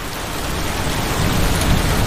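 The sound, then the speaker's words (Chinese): Rain falling on grazing land where a herder keeps cows, a loud, dense, steady hiss of drops that swells slightly toward the end, with no voices. “终于开始下雨了。”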